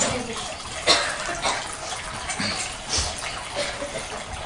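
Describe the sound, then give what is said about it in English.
An indoor waterfall runs with a steady, full rushing of falling water, broken by a few soft knocks and bumps. “During the class, shall we turn this off, this waterfall?”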